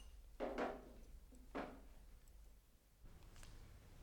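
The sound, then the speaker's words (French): A waiter sets a wine bottle and glasses down on a table: two faint knocks with a brief clink, spaced about a second apart, over a low steady hum. “Le garçon qui emportait des soucoupes sort une bouteille de vin et des verres.”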